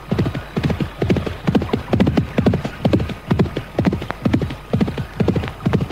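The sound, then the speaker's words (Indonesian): A horse's hooves clip-clop in a steady, relaxed walking rhythm along a riverbank, the regular hoofbeats repeating many times throughout with no talk. “Setelah berhasil mendapatkan seekor kuda yang cukup baik, kemudian Anting Wulan melanjutkan perjalanannya dengan santai menyusuri pinggir Kali Cipunagara.”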